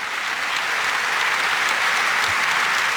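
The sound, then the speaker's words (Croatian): A TV studio audience applauds a long-running morning show on its 34th anniversary: dense, even clapping that holds steady throughout without pause. “Ova naša mala emisica koja se zove Dobro jutro Hrvatska proslavila je 34 godine, pa dajte pljesak i njima.”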